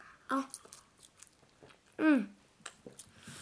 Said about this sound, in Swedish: Vad är det vi äter idag då? Pizza. Hemma gjorde va?